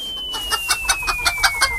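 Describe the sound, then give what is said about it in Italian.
Chickens clucking in a henhouse in Vivaro, Pordenone, a steady series of short, evenly spaced clucks with a thin tone gliding slowly downward beneath them. “Qui al pollaio di Vivaro, in provincia di Pordenone, le galline si stanno preparando al contrattacco”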